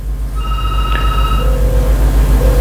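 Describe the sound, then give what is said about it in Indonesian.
Ringing tone of an outgoing telephone call: a bright electronic ring followed by short, lower-pitched tone pulses, heard over a steady background hum. “Saya akan menelpon terlebih dahulu yang ingin bergabung.”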